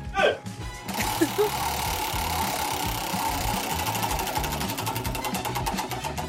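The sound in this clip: Rapid mechanical clicking of a prize wheel spun for a draw, a fast, even ratchet running steadily and fairly faint after a brief voice at the start.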